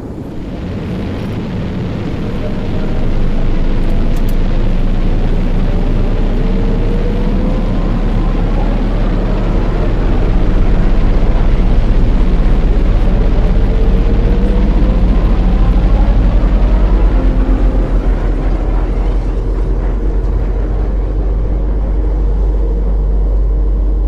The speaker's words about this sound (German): Die Rakete startet. Wir müssen auf die Sitze, sonst 4, werden wir von der Beschleunigung zerquetscht. Ja, 3, da! Die Sicherheitsgurte! 2, 1, Triebwerke starten.